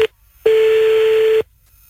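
Telephone line tone while calling back: a brief beep, a short gap, then one steady mid-pitched tone held for about a second before it cuts off. No voices are heard.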